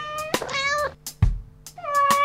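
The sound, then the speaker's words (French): A small cat meows a few times, with drawn-out, high-pitched, tonal mews and a short pause between them. “Mon petit chat se met à miauler.”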